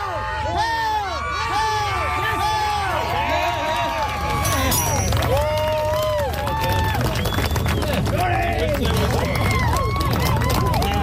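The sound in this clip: Crowd cheering and yelling as a Canadian athlete lifts Scotland's Dinnie Stones, a dense, loud mass of shouting voices that holds steady for the whole stretch with no quiet gaps.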